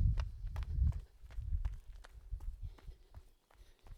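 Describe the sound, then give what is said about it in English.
Running footsteps of a beginner jogger going up a hill, heard as fairly quiet, rhythmic thuds and scuffs at a steady, quick pace with low rumbling underneath. “Let's start running again. Off we go. Oh, a bit of a hill for me.”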